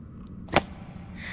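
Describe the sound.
A whip lash strikes once, a single brief, crisp crack standing out from a quiet, steady hiss, with no talk around it.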